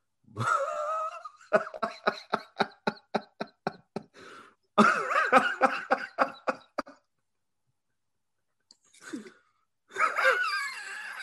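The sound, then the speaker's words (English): Wheezing and coughing come in a rapid run of many short, sharp bursts, followed by longer rasping, breathy stretches, a brief silence and then more wheezy sounds. “You all right? You wheezing over there?”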